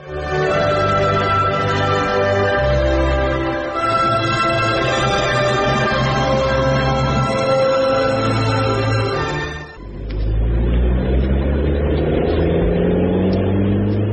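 Loud, steady mid-pitched engine drone of a moving car in a radio drama scene, shifting in tone partway through and again near the end, with no voices over it.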